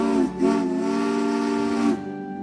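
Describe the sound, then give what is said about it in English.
A loud steam locomotive whistle from a fast, streamlined engine gives a short blast and then a long, steady one at an even pitch, with no talk over it. “has a whistle that sounds like this”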